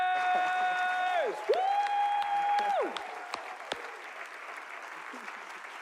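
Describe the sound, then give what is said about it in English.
Audience applause and cheering at a church event as the audience stands to welcome a preacher, loud clapping with sliding tonal notes over it at first, then settling into softer, steadier applause. “I want you to stand to your feet, Embassy City, Stand up. I want you all to stand up, put your hands together”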